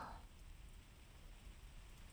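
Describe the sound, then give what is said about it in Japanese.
Light rain begins to fall outdoors, a faint, steady hiss of drops that stays even and unbroken throughout without any thunder. “降ってきたね、雨。”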